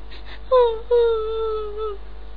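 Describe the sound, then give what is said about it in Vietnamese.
A voice acts out a rabbit character crying in a fairy tale, imitating the sound with two drawn-out whimpering wails that slide downward in pitch over a steady background hum. “Thỏ ơi, thỏ đừng khóc nữa.”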